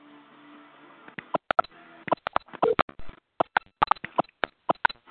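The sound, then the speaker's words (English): Telephone keypad tones entering a passcode on a conference call line: many short, clipped beeps in quick, irregular succession, each a bright two-note tone, with brief gaps of silence between the presses. “Please enter your passcode followed by the pound sign. Please enter your host ID followed by the pound sign.”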